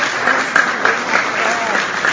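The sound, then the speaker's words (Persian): An audience applauds with loud, continuous clapping that stays at a steady level throughout, while voices are heard through it. “دست بزنید براش، دست بزنید براش.”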